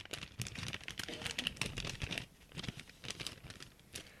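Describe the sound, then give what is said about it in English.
Paper envelope being torn open, with many quiet crinkling and ripping rustles in quick succession, a short lull midway, then more crackling tears. “Okay. Let me open. So I'm going to open the second envelope.”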